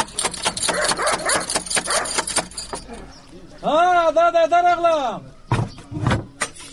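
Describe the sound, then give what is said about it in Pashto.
Knocking on a wooden door in a rapid series of hard, dull raps, mixed with voices, followed by a drawn-out, wavering voiced call and more talk. “ته ودرېږه چې دا دروازه بیا ور وټکوم.”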